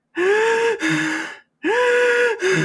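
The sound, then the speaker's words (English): Heavy, out-of-breath breathing: two loud, voiced, gasping breaths, each followed by a shorter gasp, with a brief pause between the pairs. “I don't know how you're still out of breath.”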